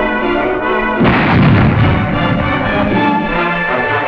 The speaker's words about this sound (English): Near Torre Pedreri, supporting infantry, 7.2 howitzers go into crash action.